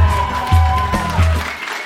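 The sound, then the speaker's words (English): Audience applause and crowd noise at the start of a live comedy show, a loud, continuous wash of clapping that eases slightly toward the end. “Famously, the best way to start any live comedy show is having to ask the audience to please clap.”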